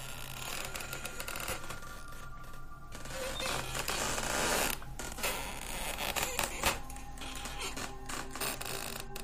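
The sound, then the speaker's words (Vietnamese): Creaking of a hammock swinging and grinding against the post it hangs from, a run of repeated wooden creaks and rubbing with no voices. “Cái võng mà Liên trước đây hay nằm tự nhiên đung đưa nghiến vào cái cột treo kèn kẹt kèn kẹt.”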